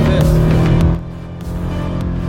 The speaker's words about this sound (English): This is a 993 RS. It's not a club sport, but this is what it's like to be behind the wheel